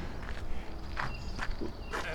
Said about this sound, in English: All right, I'm walking under the owl trees.